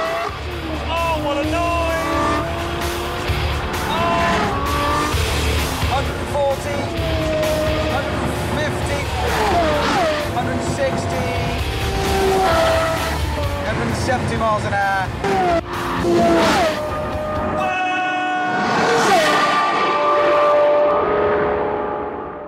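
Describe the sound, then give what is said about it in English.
A new Lamborghini supercar races down a closed-off highway in Abu Dhabi, its engine roaring hard and continuously with shifting pitch. A man talks over the engine throughout, and a thinner, high whine stands out near the end. “Want to know what this new Lamborghini is like? Take a spin with Richard Hammond of the wildly popular British TV show Top Gear as he races down a closed-off highway in Abu Dhabi.”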